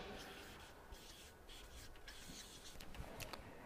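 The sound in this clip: Faint scratching of writing on a board, with a few thin, squeaky strokes that grow a little more distinct toward the end and no talk over it.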